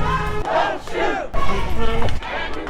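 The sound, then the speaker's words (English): A crowd of heated demonstrators chants at a nighttime street protest, with many voices shouting loudly together in two long phrases. “If you look through the crowd of heated demonstrators tonight,”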